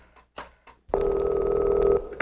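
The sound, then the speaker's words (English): A telephone rings, with a single steady electronic buzzing tone about a second long. A few faint clicks come just before it. “I'm calling your son on the chicken phone.”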